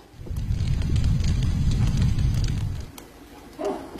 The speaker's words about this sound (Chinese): 锅里的清水烧至冒泡，倒入洗净的大米，柴火添旺，盖上锅盖